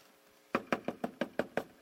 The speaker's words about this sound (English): another little knock at the door